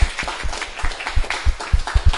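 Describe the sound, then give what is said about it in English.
Audience applause in a short burst of uneven claps that swells and dips in loudness, without a steady rhythm. “Can we give a round of applause to Aram because he came here all the way from Long Island?”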